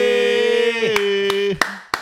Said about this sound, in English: Producer Joel just told us to up the energy, so I've just started clapping.